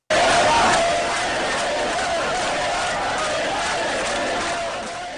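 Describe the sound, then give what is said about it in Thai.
Iraqi crowd shouts at a recruitment drive for a fighting force against Sunni Islamist armed insurgents. A loud, dense roar of many voices bursts in abruptly and carries on steadily, easing slightly toward the end. “เสียงของชาวอิรักที่การรับสมัครเข้าร่วมกองกำลังต่อสู้กับกลุ่มต่อต้านรัฐบาลซึ่งแสดงถึงความฮึกเหิมในการต้องการกำราบขบวนการติดอา”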